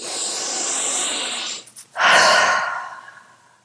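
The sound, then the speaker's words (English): Deep breathing during a tapping exercise: a long, steady inhale through the nose hisses for over a second, a brief catch follows, then a strong, loud exhale rushes out and fades gradually. No one speaks. “Inhaling through the nose if you can, and a strong exhalation.”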